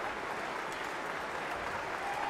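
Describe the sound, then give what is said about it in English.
A concert audience on its feet applauds after a performance of Barber's Violin Concerto, a steady wash of many clapping hands with no break, swelling a little at the end. “Now the audience is on its feet. Hadalek bows and shakes the conductor's hand. The ovation continues as Hadalek turns to the orchestra and applauds them.”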